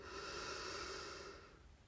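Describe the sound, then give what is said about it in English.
A single deep inhalation during a guided relaxation exercise, heard alone as a soft, airy rush that holds for over a second before tapering off. “Take a deep breath in”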